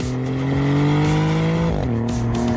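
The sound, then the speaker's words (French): A Maserati GranTurismo Trofeo coupé's twin-turbo V6 engine drones loud and steady, its pitch briefly dipping and then settling again partway through. “C'est vrai qu'il sonne bien ce V6.”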